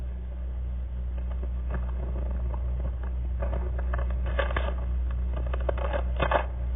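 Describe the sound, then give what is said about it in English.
Paper rustles and crinkles as an envelope is opened at the Academy Awards for the Thalberg Award, quiet at first, then several sharper crackling bursts toward the end over a steady low hum. “I'm sure you can hear the envelope being opened.”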